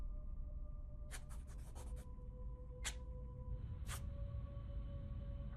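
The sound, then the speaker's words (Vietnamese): A small piece of red brick scratches drawings across a porch floor. A quick run of rasping strokes comes first, then two separate scrapes follow. A faint steady tone runs throughout. “Tay của Mị cứ như vậy đưa qua đưa lại màu gạch trên hiên nhà, tạo thành những tiếng loẹt xoẹt.”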